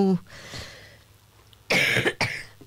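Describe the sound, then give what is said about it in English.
Someone with an irritated throat gives two loud, harsh coughs close together after a quiet stretch, clearing their throat. “I've just got a frog in my throat just at the wrong moment.”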